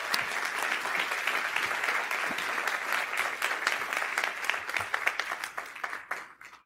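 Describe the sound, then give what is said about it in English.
Audience applause welcomes local pastors onto the stage: dense, steady clapping fills the whole stretch at an even level, then thins and fades in the last moment. “So when I ask you, would you join me in welcoming your local pastors to our stages? Give it up for all of them.”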